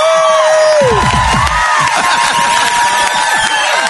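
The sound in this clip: A live audience cheers at the Le Bourgneuf stage, a loud, continuous wash of crowd voices and shouts with sustained musical tones running through it.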